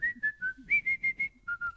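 A person whistles a song melody, a clear run of about ten short, bright notes with small steps in pitch, heard alone without talk.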